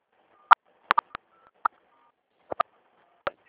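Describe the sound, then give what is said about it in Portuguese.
Telephone keypad tones from keys pressed during a phone call: about eight short, clear beeps at an irregular pace, some in quick pairs, alone with no talk. “É que a senhora encostou no teclado e só apareceu o som das teclas aqui.”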